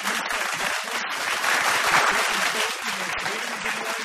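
An audience gives a round of applause for the second runner-up in a contest, a dense and steady burst of clapping mixed with faint crowd noise.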